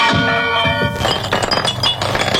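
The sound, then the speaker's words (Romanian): A lamp breaking: a sharp glassy crash that bursts in partway through, followed by a loud scatter of clinking and tinkling fragments with dull knocks. “Acum ați spart lampa finală!”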